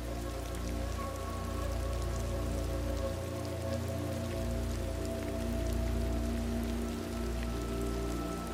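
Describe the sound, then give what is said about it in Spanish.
Soft rain falling steadily around a small cozy house, a gentle even hiss of drops that continues without breaks and stays quiet and calm throughout. “mientras escuchas el suave murmullo de la lluvia que te envuelve.”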